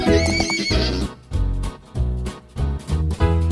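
A horse whinnies with a loud, quavering, high neigh, then its hooves clip-clop in a quick, uneven rhythm of several thudding beats.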